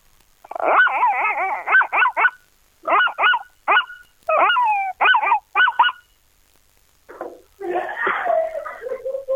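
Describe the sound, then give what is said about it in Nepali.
A person imitates a puppy barking, producing high yelping barks and whimpering wails in several quick bursts separated by short pauses, loud against an otherwise quiet background. “सानो कुकुरको बच्चा होइन?”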